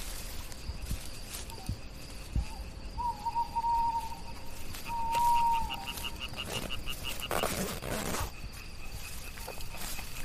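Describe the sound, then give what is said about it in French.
Tree frogs call at night: a few faint, short trilled notes rise over a steady hum of insects, with a brief burst of rushing noise near the end. “Hey, tu entends? Les rainettes sont en activité ce soir.”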